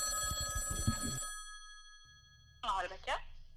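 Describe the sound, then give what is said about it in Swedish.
On an outgoing telephone call, a ringing tone sounds for about a second with a buzzy pulsing pattern and then cuts off. A short quiet gap follows before a voice speaks over the line. “men vi ska väl, eh, som traditionen bjuder, ringa upp eh, Captain Rebecca.”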